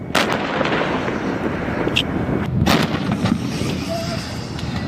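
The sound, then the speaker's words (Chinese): Artillery guns firing during a military live-fire drill on a windy Gobi desert range: a heavy blast near the start, then a few more sharp reports over a continuous loud roar. “各火力单元在接收到目标信息后迅速完成射击准备。 3、2、1，放！”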